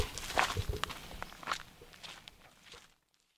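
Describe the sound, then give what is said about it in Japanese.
Footsteps walking downhill along a road: a steady run of scuffing steps that thins out and stops, leaving silence at the end. “見返り道路という名前がついてるちょっと悲しい名前ですねそんなところを今歩いて降りてます”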